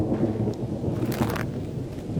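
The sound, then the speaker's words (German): Steady rain falling as a day of drizzle continues, a dense, even patter with a low rumble underneath, with no talk. “Aber nichts als Regen.”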